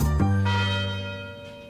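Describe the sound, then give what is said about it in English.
University tower chimes ring out in loud, resonant bell tones. Strikes come in close succession near the start, and the rich hum then slowly decays. “The University Tower chimes ring in another session of Ask the Professor”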